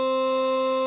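A synthesizer holding a middle C note as a steady, unbroken tone rich in overtones, loud and level throughout the short clip.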